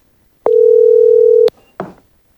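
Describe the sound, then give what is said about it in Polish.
Telephone tone on an incoming call: one steady, loud, unbroken tone lasting about a second, cut off by a click and followed by a brief, softer rustle. “Wtedy właśnie liderka wenezuelskiego obozu demokratycznego, opozycjonistka, odebrała bardzo ważny telefon.”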